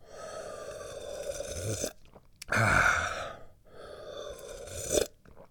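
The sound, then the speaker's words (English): Hot tea being sipped in a few slurping draws, breathy and airy, with short quiet gaps between them. “Oh, I need some tea. Where'd that tea go? Oh, it's over here now.”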